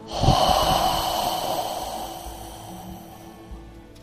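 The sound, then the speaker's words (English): A deep exhale follows a held breath during a guided breathing exercise. It opens with a sharp nasal burst, then the breathy release trails off slowly and fades. “Just expand the capacity of those lungs. Fuller, hold it. Hold it. Exhale.”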